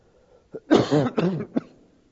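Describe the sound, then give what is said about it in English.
Coughing and throat clearing from someone with a piece of communion bread stuck in the throat: a small soft cough, two strained, voiced hacking bursts, then a final quick cough, moderately loud and alone. “I got a piece of communion bread stuck in my throat.”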